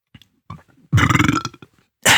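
A loud, drawn-out belch from a man eating roast turkey at a meal, rumbling and throaty, preceded by a few faint, soft sounds.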